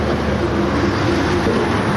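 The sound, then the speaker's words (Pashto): Vehicles passing on a roadside near a plant nursery make a loud, continuous rumbling roar. The wash of traffic noise stays steady throughout, with no talking. “هغې ترالو تاسې بلې غاړې ته ودرېږو، دا د ګاډو شور به هم نه خرابوي.”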